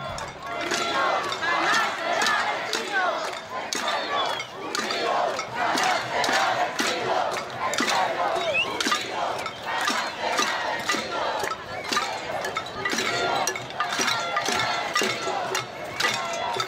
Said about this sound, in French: Ce que vous entendez là, ce sont les voix de milliers, de centaines de milliers d'habitants du Chili.